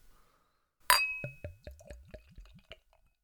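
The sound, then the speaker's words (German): A sharp pop and clink as a bottle of Trumer Hopfenspiel beer is opened, followed by several rising, gurgling glugs as the beer pours, each a little softer until they fade out. “Dann werde ich mal das Flaschal aufmachen und kommen mal zur Verkostung.”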